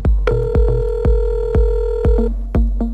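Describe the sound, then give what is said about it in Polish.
Telephone tones: a long steady dial-like tone, then a few shorter beeps, over a regular low thump about every half second. “przy telefonie wykręca numer. W telefonicznym skrócie.”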